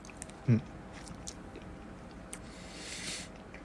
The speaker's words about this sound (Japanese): ああいちごだ意外とそのマスカルポーネクリームはすごい甘くないですね